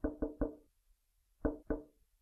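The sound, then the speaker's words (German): Knocks tapped out as a signal message: a quick run of three sharp, dry raps, a pause, then two more. The raps are firm and evenly loud, with no voices. “Emsig wie ein Specht am Baumstamm klopfte Peter eine Nachricht nach der nächsten.”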